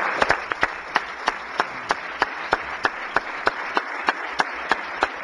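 Applause in the Missouri Senate welcoming a special guest: a steady bed of clapping, with many sharp, evenly paced claps standing out above it in a regular rhythm.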